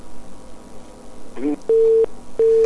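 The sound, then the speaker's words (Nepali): A phone-in call to a Nepali radio show drops mid-song, and after a person talks the line gives two long, steady beeps of a flat electronic tone with a short gap between them. “Phone बिचैमा फ्याट्री काटियो है”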